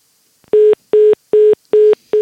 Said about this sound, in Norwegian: Det er noe digg med den beep-beep-beep-lyden på slutten.